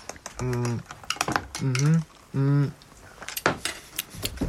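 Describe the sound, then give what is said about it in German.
A spoon stirs a sweet, honeyed drink in a cup, making many quick metallic clinks and scrapes. Short hummed voice sounds come in between the clinks. “Ich glaube, man muss es umrühren. Sonst kann ich es noch nicht so richtig schmecken, weil das irritiert mich alleine, dass es oben warm ist und unten kalt. Danke. Dankeschön für die Löffel”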